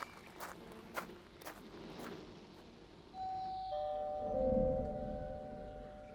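A doorbell rings at an overgrown house, giving clear sustained chime tones that ring out and slowly fade. A few soft footsteps come just before it.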